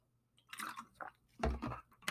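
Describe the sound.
Quiet mouth sounds of someone drinking water: a few soft, wet gulps and swallows in short bursts, alone and close.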